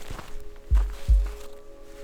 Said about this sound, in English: I'm walking up the sand dunes here.